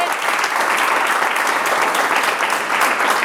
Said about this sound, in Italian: E ti facciamo un applauso intanto